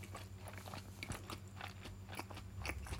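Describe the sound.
Crunchy chewing of food with sesame: many small, crisp bites and crunches in quick, irregular succession, fairly faint and without talk.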